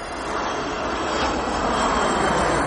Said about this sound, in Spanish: Un avión se eleva hacia el cielo nocturno.